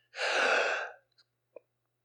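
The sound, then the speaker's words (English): A single deep breath, drawn in loudly and steadily for nearly a second, is taken as a demonstration during a church sermon. It is followed by near silence and a couple of faint clicks. “If that's the last breath I take, I trust God.”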